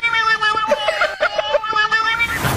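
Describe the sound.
A cat meows in a sung, melodic way that resembles a pop vocal line, with a string of sustained, tonal notes that step up and down in pitch.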